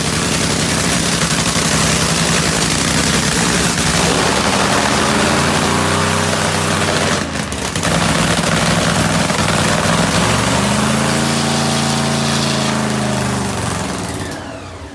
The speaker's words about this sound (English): Drag racing fans, the NHRA is coming back.